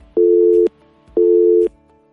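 Telephone busy signal heard while calling a phone line: two steady, mid-pitched electronic tones, each about half a second long, separated by an equal gap of silence, clean and alone.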